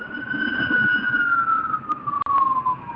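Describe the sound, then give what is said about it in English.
Fire truck siren sounding as the truck drives by: a loud, steady wailing tone that drifts slightly lower in pitch over three seconds, with low traffic rumble beneath. “And that's a fire truck rolled by. Sorry about that. That kind of put a flashback on me. Yeah, the fire truck rolled by.”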